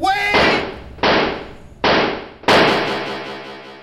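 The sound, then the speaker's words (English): Four gunshots fired by police at an unarmed man they believed was reaching for a gun. Sharp, loud cracks come at uneven intervals, each followed by a harsh, noisy decay, with the last shot ringing on longest. “Wait! They shot me. 4 times.”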